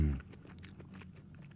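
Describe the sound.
Someone chews a pocket-size watermelon berry, a tiny melon. A voice sounds briefly at the start, then soft, faint, wet crunching and clicking bites continue quietly.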